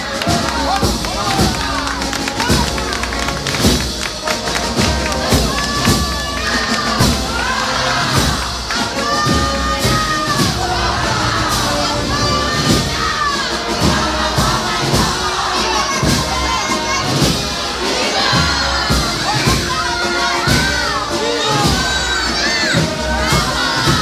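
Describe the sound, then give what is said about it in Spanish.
A street crowd in Granada cheers and shouts throughout a religious procession honouring the Virgin, a dense, loud, continuous roar of many voices with high cries rising above it. “déjanos en ese sonido en directo desde las calles de Granada”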